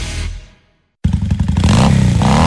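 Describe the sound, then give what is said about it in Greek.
A motorcycle engine bursts into a loud, rapidly pulsing throb after a brief silence and keeps running strongly to the end. Another sound fades out just before it starts. “Αν σας αρέσει αυτός ο ήχος και αγαπάτε τις μοτοσικλέτες”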